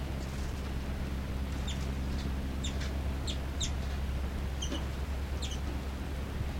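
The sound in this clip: Two birds trade calls: a scattered series of short, high, faint chirps repeating over a steady low hum.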